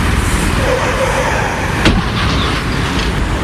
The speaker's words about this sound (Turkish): Görüntüler İstanbul trafiğinden. Bir sürücü araçların arasından tehlikeli bir şekilde makas atarak ilerledi.